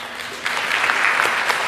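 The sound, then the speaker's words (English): Applause breaks out from the audience at a library association meeting as council members are announced. A burst of many hands clapping rises sharply and then holds as a steady, dense wash. “Maybe we should hold our applause to the end”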